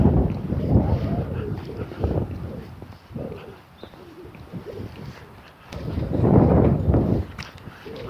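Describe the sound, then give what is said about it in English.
Gusty wind buffets the microphone while someone walks outdoors into the wind. A low, rumbling roar surges strongly at the start and again near the end, easing to a softer, steadier rush in between. “Because I'm walking into the wind again.”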